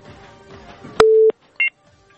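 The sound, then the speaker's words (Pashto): Telephone tones after a call is cut off: a sharp click, then a steady low tone lasting about a third of a second, followed by a brief, higher two-tone beep, over a faint murmuring background. “اړیکه یې له بده مرغه چې پرې شوې ده.”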